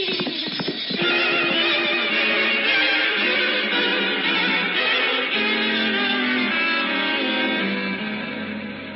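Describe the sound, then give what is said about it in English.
Reindeer hooves gallop through a dark, snowy night across Finland in an audio drama effect: a dense, steady drumming of hoofbeats that lasts throughout, with animal cries mixed in. “And so Gerda set off on the reindeer's back through the dark and snowy night. Across the wastes of Finland they galloped.”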